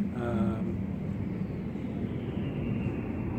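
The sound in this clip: An airplane passes, giving a faint, steady roar of jet or engine noise. A thin tonal whine is heard at first, then fades into a broad, even rush that lasts to the end.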